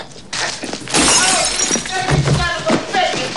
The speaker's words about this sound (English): smashes the bottle over his head and he falls behind the counter